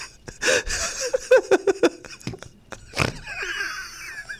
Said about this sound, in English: Don't snort. That does not help.